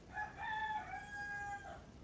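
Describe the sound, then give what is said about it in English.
A rooster crows once, a loud, clear call that holds a steady tone for over a second and then breaks off, heard on its own without voices. “That's a rooster.”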